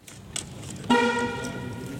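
An electric car sounds its horn in a single loud, sustained, bright honk that starts about halfway through and holds steady to the end, over a background hiss.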